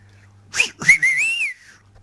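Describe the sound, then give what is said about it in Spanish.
Silbo Gomero whistled language: a short, sharp whistled note followed by a longer, clear whistle that glides and bends in pitch, alone over a faint low hum. “¿Y el silbo gomero ahí?”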